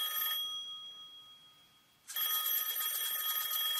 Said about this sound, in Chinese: 好复古的铃声哦